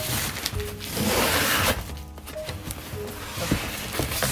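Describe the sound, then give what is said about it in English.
Packing tape being pulled off a large cardboard shipping box: loud, rasping, ripping strips with brief pauses between pulls. “It says do not use a sharp instrument. Oh, I'll just pull the tape.”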